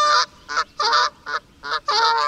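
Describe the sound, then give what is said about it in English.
Geese honk in a rapid series of loud, nasal calls, several sharp honks in uneven bursts with brief pauses between them, with no talk over them. “Yeah, it's geese.”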